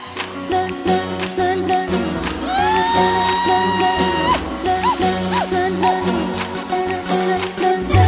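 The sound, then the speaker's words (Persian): A lively audience claps, whistles and whoops, with rising whistle glides over continuous cheering and a steady bed of tones. “یه دستی سوتی جیغی های هوی”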